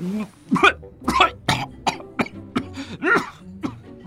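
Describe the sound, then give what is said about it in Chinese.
Harsh coughing from a man who has choked on a mouthful of food, a rapid series of loud, raspy bursts that keep coming throughout without pause. “结果把自己呛着了。他捂着嘴直咳嗽。”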